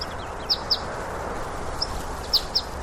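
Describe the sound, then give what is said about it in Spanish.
A greenfinch sings in a few short, high chirps spaced apart, faint but distinct over a steady background hiss. “¿Es el que canta? ¿Es un ruiseñor? No, no es un ruiseñor, es un verdún.”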